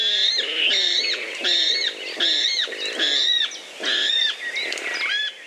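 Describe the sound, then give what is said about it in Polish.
A water rail gives pig-like squealing calls from reeds: a rapid series of sharp, high, harmonic squeals in repeated loud bursts, with lower grunting notes beneath. “będzie to wodnik. Rallus aquaticus.”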